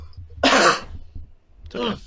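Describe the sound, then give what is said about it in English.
Two harsh coughs come from someone trying to clear something caught in the throat. The first burst is longer and louder, and a shorter cough follows after a brief pause. “Oh my gosh, I have something caught in my throat.”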